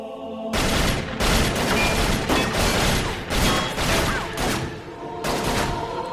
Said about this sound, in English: For a few seconds, this place was Armageddon. There was a firefight!